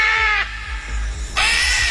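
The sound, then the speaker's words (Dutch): Harsh, screeching calls of a green-winged macaw parrot that escaped from a bird park during a show. Two loud, rasping squawks are separated by a short quiet gap. “Het is een papegaai, een groenvleugelara. Kleurrijk beest”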